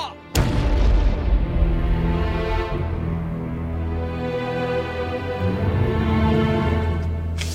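Soldiers fire their guns at a fort: one sharp, heavy boom bursts out near the start, then gives way to a long, sustained low rumble carrying a steady tonal hum until the end.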